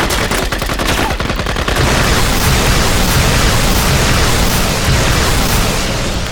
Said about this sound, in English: slipped into the building behind them, and shot them in their hiding holes